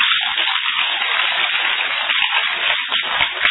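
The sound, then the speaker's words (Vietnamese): Crowd applause at a Buddhist Medicine Buddha retreat in Conroe, Texas, given in honour of a village protector. Dense, steady clapping holds at an even level for the whole stretch, with no talking over it. “cho ổng tràn pháo tay đi”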